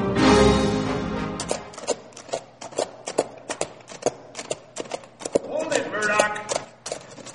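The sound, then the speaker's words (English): Hooves clop as a rider approaches on horseback, a long series of crisp, evenly paced hits, with people talking at the start and again near the end. “The deputy from Canyon Springs rode up then.”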